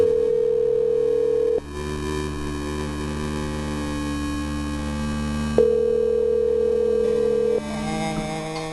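Steady electronic telephone tones on a line while calling a hotel, holding a sustained pitch with a few abrupt shifts in level and tone, continuous with no pauses and no talk.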